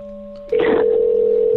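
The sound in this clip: A telephone line tone as a call is placed: a low hum, then a short burst of noise, then a loud, steady single-pitched tone that holds to the end.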